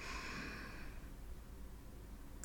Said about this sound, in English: Again, take a deep breath in.